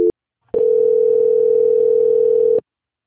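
Steady telephone line tone during a call transfer: a very short blip, a brief pause, then one continuous mid-pitched tone holding for about two seconds before cutting off cleanly, with no voices.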